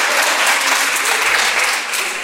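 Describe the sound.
Applause from people at a get-together as two guests leave, a dense, steady clapping of many hands, loud and sustained throughout.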